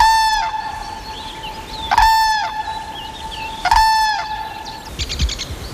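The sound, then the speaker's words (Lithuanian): Cranes call in the early morning: loud, trumpet-like cries with sustained, harmonic notes come in a few repeated bursts over quiet background noise. “Šį ankstų rytą mus sveikina gervės.”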